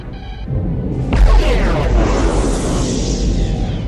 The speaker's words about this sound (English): Captain, the enemy vessel is firing on us.